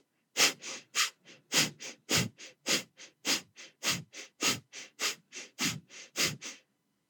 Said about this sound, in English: then pump your belly in as you sharply breathe out through your nose at a fairly rapid pace. It will sound something like this.